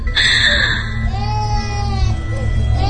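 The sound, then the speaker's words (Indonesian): A small child crying, a sustained wavering wail with sliding pitch that keeps going across the whole clip, loud and continuous with no breaks. “Sampai kini suara tangisan anak kecil itu kembali terdengar.”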